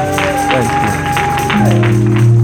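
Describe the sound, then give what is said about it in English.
A church audience applauds to welcome a pastor to the pulpit, a steady, continuous wash of clapping that holds level throughout, mixed with sustained, held musical tones. “Let's welcome him with a hand to the Lord Jesus.”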